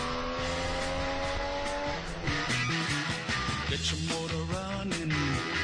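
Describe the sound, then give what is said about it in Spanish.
A car engine revs hard and continuously, its loud, rich note stepping up and down in pitch through several shifts. “¿Has escuchado el motor? ¿Se te han puesto los pelos de punta?”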